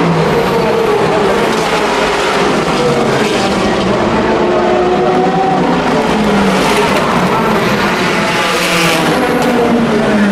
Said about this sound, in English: That raspy sound was the number 67 Ford GT by Ford GT. It really makes a good noise, as does the entire field.